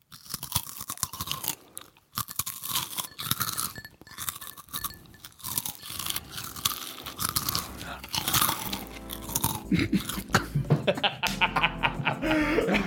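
Crunching and chewing of Cheetos close to the mic for ASMR, many crisp, uneven bites and munches that grow denser, with soft chuckles and laughter between them.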